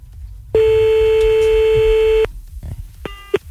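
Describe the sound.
A telephone line tone heard while calling back: one loud, steady electronic tone held for nearly two seconds, a short quiet gap, then a shorter burst of the same tone.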